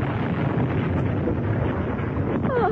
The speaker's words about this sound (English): That bomb would have blown us all the way back to town.